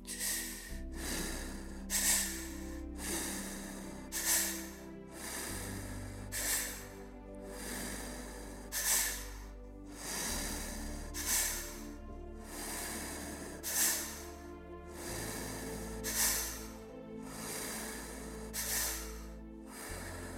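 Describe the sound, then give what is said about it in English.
Loud breathwork breathing through the mouth: double inhales followed by a single exhale through pursed lips, repeated in a steady rhythm of many breath cycles over a soft, sustained musical drone. “Keeping that double inhale, one exhale out of the pursed lips, making the breaths loud enough for you to hear.”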